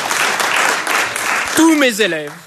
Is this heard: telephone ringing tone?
no